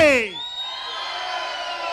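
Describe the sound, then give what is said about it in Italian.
A studio audience at a radio show shouts together on a count of three; a single voice sweeps down at the start, then a loud, sustained crowd roar fills the rest of the two seconds. “Al mio tre un bell'urlo e partiamo con Paromix, ok? Pronti? 1, 2, 3!”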